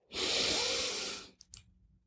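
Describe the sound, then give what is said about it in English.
A deep breath drawn in during a guided breathing exercise: a loud, airy rush lasting about a second that fades out, followed by two brief, soft sounds. “Give me a deep breath in.”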